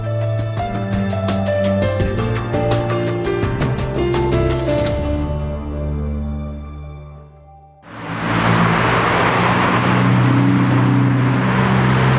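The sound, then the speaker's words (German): Road traffic roars beside a busy inner-city ring road in Munich: a steady drone of engines with sustained humming tones, dipping briefly before a louder, broad rushing wash of passing vehicles takes over. “So hört es sich an, wenn man in München direkt am Mittleren Ring steht.”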